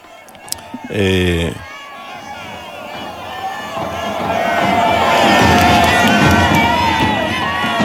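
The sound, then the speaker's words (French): A crowd of many thousands in St. Peter's Square cheers and chants "Viva il Papa": a dense mass of voices swells steadily louder toward the end, with a brief loud buzzing tone near the start. “Vous pouvez, en fond, vous entendez toujours les Viva il Papa.”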